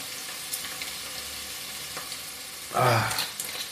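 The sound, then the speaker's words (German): Minced meat frying in a pan on a stove, a low, steady crackle that suddenly surges into a loud sizzling burst and then settles back to a softer hiss. “So, jetzt kommt das Hackfleisch rein. Ja, das Fleisch kommt rein. Jetzt muss ich den Herd wieder höher drehen.”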